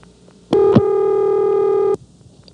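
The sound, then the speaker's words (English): Ringing signal from an old telephone exchange: one steady, buzzy tone with strong harmonics. It switches on abruptly, lasts about a second and a half, then cuts off sharply, with near silence on either side. “it still has its original dial tone. But the ring, which used to sound more like this, is now this.”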